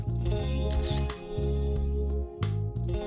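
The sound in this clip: Camera shutter clicks as a sound effect layered over a steady musical backing, with several short, bright clicks standing out above sustained low tones.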